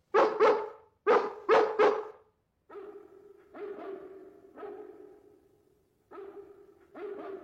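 Pongo, a Dalmatian dog, barking: four sharp, loud barks in quick pairs, then several softer, longer and more drawn-out barks with short gaps between them.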